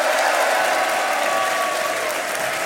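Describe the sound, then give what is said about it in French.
Loud, continuous applause from an audience at the Théâtre du Peuple, a dense wash of clapping that stays even and sustained throughout. “Un immense merci à vous. Et ça tape du pied, allons-y carrément.”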